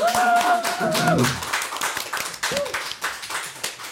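Audience applause at a live recording at the Margate Bookie in Margate: steady, dense clapping that carries on throughout and thins slightly toward the end.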